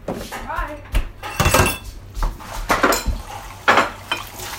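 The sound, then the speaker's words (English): Ceramic bowls clink and knock against each other as they are passed around, with several irregular clattering bursts amid nearby voices. “We have lots of bowls. That's exactly what it is. Everyone, pass me two bowls.”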